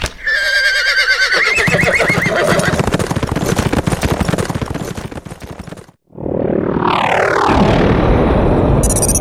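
A horse neighs loudly as its rider urges it on toward a former king's stone monument. Dense, busy noise fills the first six seconds, then comes a brief silence and a long, descending whinny.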